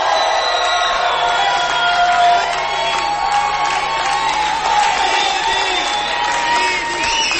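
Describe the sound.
A concert crowd cheers and applauds as a group arrives on stage: a dense, steady roar of clapping and shouting that holds at a loud, even level for the whole stretch, with scattered whoops rising out of it.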